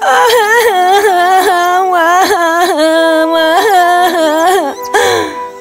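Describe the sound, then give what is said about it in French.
A girl crying after hurting her knee, performed by a voice: loud, high wailing sobs that rise and fall in a run of repeated pulses, then a short break before one last cry. “Alors, elle se mit à pleurer.”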